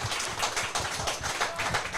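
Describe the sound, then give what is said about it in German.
Audience applause at a live show, crisp overlapping hand claps forming a busy, fairly soft patter that continues evenly for about two seconds. “Mal einen Applaus für die Sabrina.”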